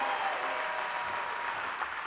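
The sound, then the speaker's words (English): Audience applause welcoming the rapper Black Thought, a dense, even wash of clapping from a crowd that stays steady through the short moment. “Give it up for Black Thought. It's a hero's welcome right there. That's a hero's welcome.”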